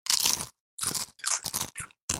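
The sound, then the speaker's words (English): Loud crunching of Doritos tortilla chips in a crunch-off contest, six sharp bursts of crisp crackling bites separated by brief silences, with no talking. “Now you know what's on the table, figuratively and literally, in the case of Doritos. It's time for us to embark on adventure. And we must do that, of course, with a crunch off. 3, 2, 1.”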